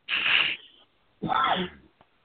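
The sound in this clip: A sneeze, a sharp, breathy burst, followed about a second later by a second noisy, voiced burst, then a brief faint click.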